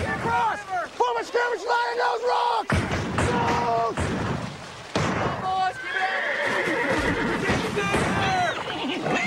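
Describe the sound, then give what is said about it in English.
Horses whinny repeatedly as a colt struggles across a river during a cavalry crossing under fire, loud shrill neighs overlapping with shouting voices and dense commotion. “The colt struggles as the Yankees drive their horses to the rebel shore.”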